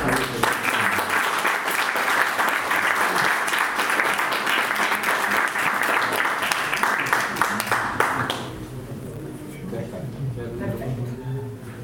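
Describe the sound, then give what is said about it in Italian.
An audience in a hall applauds: dense, steady clapping holds for several seconds, then drops and thins out as a voice begins talking. “ma vorrei da voi un particolare applauso, che fa presente in sala la mia vice Cristina Minerva”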